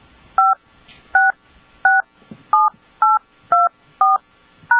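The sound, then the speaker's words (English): Telephone keypad tones entering a passcode on a conference-call line: eight clear, short dual-pitch beeps in an even rhythm, with the pitch varying from key to key and no talk over them. “Please enter your passcode followed by the pound or hash key, and I'll connect you.”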